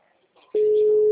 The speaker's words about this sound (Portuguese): O celular tá com problema. Tô ligando, deixa eu ver se atende.